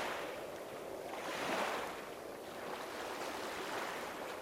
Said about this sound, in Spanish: Sientes el balanceo del ir y venir del oleaje.